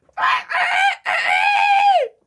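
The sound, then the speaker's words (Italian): A woman's voice imitates a rooster crowing with a cough, in three voiced bursts: two short ones, then a long crow that drops in pitch at the end. “Il gallo con la tosse è bellissimo.”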